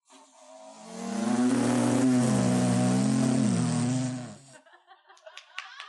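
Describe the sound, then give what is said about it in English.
A person imitates a car by vibrating the lips while crushing a soda can, making a loud buzzing, engine-like drone of about three seconds with a wavering pitch. Faint crinkles and clicks follow. “for a car, if you crush a soda can and kind of vibrate your lips”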